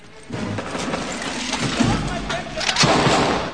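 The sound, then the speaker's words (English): Gunfire in a film scene of soldiers taking cover amid fallen masonry: dense, continuous noise of shots and crashes, with heavier bursts around the middle and near the end. “The group races over the fallen masonry and takes cover, gunfire coming from all around.”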